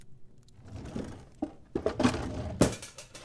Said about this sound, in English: Hey, keep it down. Sorry, it just slipped. Yeah, I heard that before. Oh, huh, the pot.